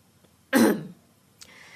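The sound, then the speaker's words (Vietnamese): A woman clears her throat: one firm, raspy burst, then a brief, fainter follow-up after a short pause. “liền hắng giọng vài cái”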